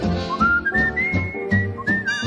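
Someone whistles a tune alone: a clear, high melodic line that climbs early, then moves through sustained and shifting notes with short breaks between phrases.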